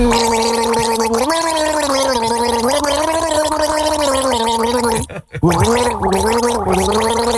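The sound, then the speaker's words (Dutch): A person gargles a tune in the throat, producing loud, continuous voiced bubbling whose pitch wavers up and down like a melody, with one brief break before the gargling resumes. “Dat is dan wel knap gegorgeld, hoor.”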